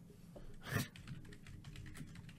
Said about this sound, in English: Typing.